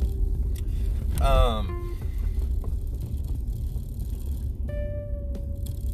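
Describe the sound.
Steady low rumble of a car driving through city traffic, continuous throughout, with a brief run of chirping higher tones early on and a thin sustained whistle-like tone near the end.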